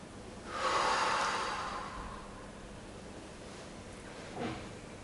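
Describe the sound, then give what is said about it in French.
Deep breath taken during a guided seated relaxation, hands on thighs and eyes closed: one long, loud, airy breath swells and fades over about two seconds, followed later by a faint, short breath, with no talking. “Prenez trois respirations bien profondes.”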